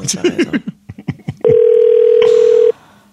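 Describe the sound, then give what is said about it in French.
A telephone being dialed: a quick run of short beeps and clicks, then one loud, steady tone that holds for just over a second before cutting off. “OK, on compose présentement.”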